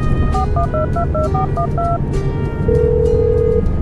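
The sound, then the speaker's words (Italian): Telephone keypad tones dialing a call home: a rapid run of short electronic beeps, then a single longer steady tone, over constant loud background rumble. “Se non le dispiace, faccio una chiamata a casa.”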